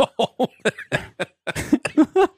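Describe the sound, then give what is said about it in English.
Harsh coughing from someone still recovering from COVID, a rapid series of about nine short, loud bursts packed into a couple of seconds with brief gaps, some ending in rougher, throaty rasps. “I apologize for my coughing.”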